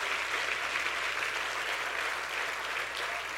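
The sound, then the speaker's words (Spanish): Applause from an audience during a sermon, a faint, even wash of many hands clapping that stays level for just over three seconds. “Si ese es el aplauso”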